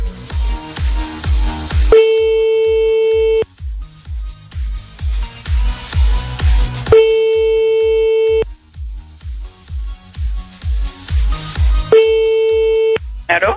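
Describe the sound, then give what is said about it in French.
French telephone ringback tone on a call back during a prank phone call: three long steady beeps, each about a second and a half, repeating about every five seconds over a loud rhythmic music bed. “Bon, on rappelle une dernière fois, après on arrête.”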